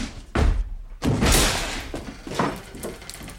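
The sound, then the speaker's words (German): A door is forced open with a few heavy thuds and bangs. A longer crashing thump comes in the middle, followed by lighter knocks and scrapes. “Die Tür auf.”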